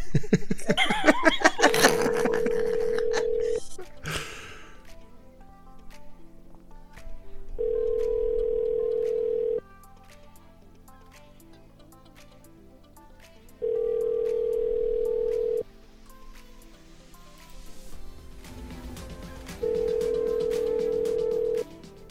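Ringback tone of an outgoing telephone call that goes unanswered: four steady, even-pitched tones about two seconds each, separated by longer pauses, over continuous background sound.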